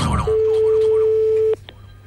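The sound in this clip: A telephone ringing tone sounds while a call is being placed: one steady, mid-pitched tone holds for just over a second and then cuts off, leaving quiet background.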